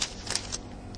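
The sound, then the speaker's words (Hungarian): Pages of a Bible being turned: a few soft, papery rustles and flicks, fairly faint, with no voices. “És hadd lapozzak oda.”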